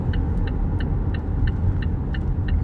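A car driving, with a steady low engine and road rumble throughout and about eight regular high ticks repeating evenly over it.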